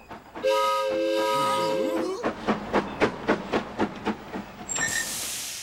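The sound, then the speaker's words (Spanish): A sightseeing ride train sounds a steady, chord-like whistle, then chugs in a run of evenly spaced chuffs and ends with a bright hiss of steam. “¡Miren! ¡Un tren de paseo!”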